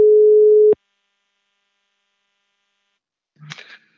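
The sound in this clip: Telephone ringback tone while a call is being placed: a single steady mid-pitched tone lasting under a second, then silence and a brief faint sound near the end.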